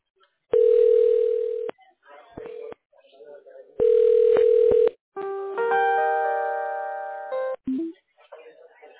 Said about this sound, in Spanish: va a escuchar que está marcando, pero yo voy a estar acá en la línea con usted